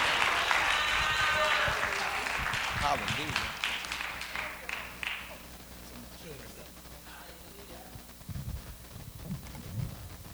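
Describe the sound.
A church audience applauds for Jesus Christ, with loud clapping and cheers that gradually fade over several seconds before a voice talks over the quieter room.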